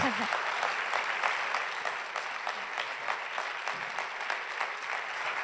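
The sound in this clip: A crowd applauds warmly to welcome a speaker, many hands clapping in a fairly quiet, steady patter for several seconds, with a voice briefly audible at the start.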